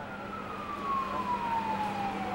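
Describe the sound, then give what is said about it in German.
A police car siren as the car arrives at the Dakota building: one drawn-out wail slowly falling in pitch over a steady background rumble. “Ein Polizeiauto kommt beim Dakota an und zwei Polizisten springen heraus.”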